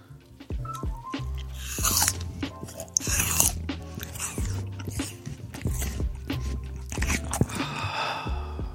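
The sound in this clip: Crunchy biting and chewing of an apple: many sharp, loud crunches in an irregular rhythm, with wet chewing and mouth sounds between the bites.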